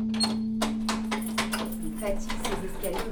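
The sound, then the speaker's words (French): A key grinds in a stiff door lock, making a cluster of sharp metallic clicks and scrapes over a steady low hum. “Elle est dure ta serrure là, non? Hein? Elle est dure ta serrure. Ouais, faut que je mette du W40.”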